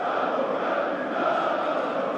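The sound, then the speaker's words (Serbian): Red Star Belgrade football supporters singing a chant in the stands, a dense, sustained crowd sound that stays loud and even throughout. “E, sada već pesma onih najvernijih upornih navijača koji veruju u Crvenu zvezdu u svakom trenutku.”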